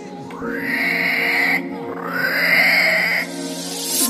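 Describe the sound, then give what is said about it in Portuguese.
A wild boar grunting and squealing in two long, drawn-out harmonic cries. Each cry rises in pitch and then holds, and a brief pause separates them. “Especial, mataram o javali.”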